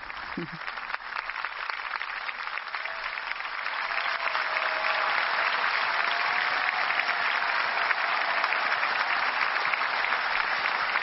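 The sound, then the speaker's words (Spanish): Applause from the audience at the Pope's visit to Paris, a dense, steady clatter of many hands that grows a little louder after the first few seconds and carries on unbroken. “un aplauso de agradecimiento de todos los presentes por esta visita del Papa a París.”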